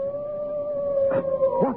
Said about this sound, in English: That was the cry of a hound. They say it's the cry of the Hound of the Baskervilles.